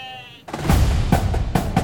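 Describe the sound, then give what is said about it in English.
A goat kept as the Naval Academy's living mascot gives a short, reedy, harmonic bleat at the start. A burst of loud, rough noise with a few sharp thumps cuts it off and continues to the end. “A goat. But it's not just any goat.”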